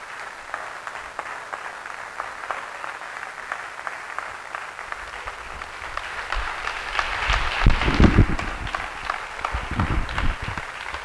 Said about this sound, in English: Say yes and clap if it's the truth.